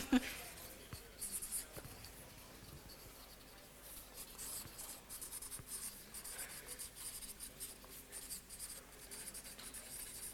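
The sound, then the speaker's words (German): Writing on a board produces faint, scratchy, rubbing strokes in an irregular rhythm, with many short marks and a sharper tap at the start. “Schöne lange deutsche Wörter kann man hier drauf schreiben.”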